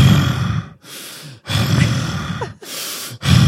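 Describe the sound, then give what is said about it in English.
A person imitates an angry man's heavy breathing: loud, forceful inhales and exhales alternating in a slow, steady rhythm, about five breaths with short silent gaps and no words. “I could tell he was waiting because he was so angry. And I could hear him breathing like,”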